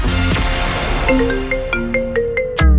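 A mobile phone ringtone plays a melodic run of bright electronic tones that step up and down over a constant background bed, ending in a louder low thump.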